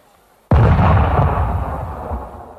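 A very powerful charge explodes in a sudden, loud blast. A heavy rumbling roar follows and slowly dies away over about two seconds.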